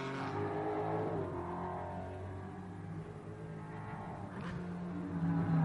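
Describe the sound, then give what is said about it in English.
Mustang, Porsche and BMW race cars crossing the start-finish line into turn one on a sunny 2.25-mile track: engines drone at a steady moderate level with shifting pitch, and a brighter rasp swells near the end. “Mustang versus Porsche versus BMW coming across the line and into turn one.”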